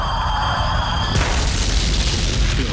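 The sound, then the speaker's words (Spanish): A tank cannon firing during a battle in Normandy, a loud, heavy boom with dense rumbling noise that holds for the whole stretch, with no quiet gaps. “Al final apuntó y disparó.”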